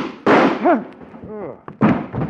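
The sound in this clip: Two loud, sharp gunshots in a radio drama standoff, separated by brief vocal cries in between.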